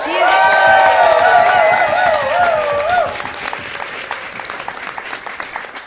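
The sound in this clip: Applause and cheering from a live audience at a comedy and political organizing event: loud sustained clapping with shrill whistle-like cheers over the first half, then steadier clapping that tapers slightly.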